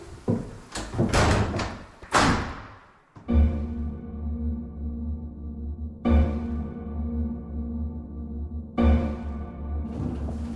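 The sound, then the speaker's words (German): A door shuts and is locked, with a few sharp knocks and rattles in the first seconds, followed by a low sustained tonal hum with soft swells. “Verriegeln Sie hinter mir die Tür und öffnen Sie sie danach für niemanden mehr.”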